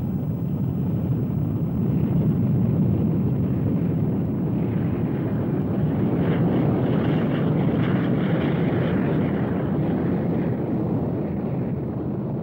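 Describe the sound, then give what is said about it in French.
A Saturn rocket's engines roar at liftoff for the July 1969 Moon launch. The low, rumbling blast stays dense and steady throughout, with a rough crackling texture and no clear rise or fall. “5, 4, 3, 2, all engines running. Launch commit, liftoff. The tower is clear.”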